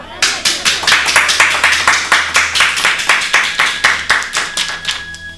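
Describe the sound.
Audience clapping to welcome a folk singer who sings in the local language with a mridang player, in Ujjain. Many steady, rhythmic claps beat in unison at an even tempo for the whole stretch.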